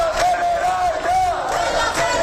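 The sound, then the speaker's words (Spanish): Protesters shouting outside the Spanish Congress: a loud crowd yelling and chanting continuously, with one sustained high voice or tone running through the roar. “de acampados en la Puerta del Sol se concentraban frente al Congreso, donde había un gran dispositivo policial, para intentar llegar con su grito a la Cámara Baja.”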